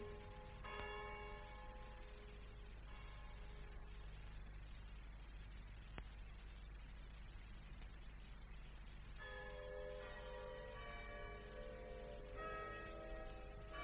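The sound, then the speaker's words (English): Faint bell-like chimes of a clock striking: ringing tones at the start and again near the end, over a steady low hum, with a quiet stretch between. “What was that just struck? I don't know. Must be about 8 o'clock.”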